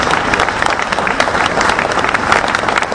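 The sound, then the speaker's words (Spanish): Crowd applause at a gathering calling for justice and memory, loud, dense clapping from many hands, sustained and even from start to finish. “Por eso pido un fuerte aplauso. Adelante. aplaudamos”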